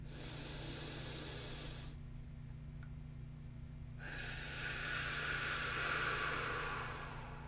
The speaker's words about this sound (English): So let's begin with a few deep breaths.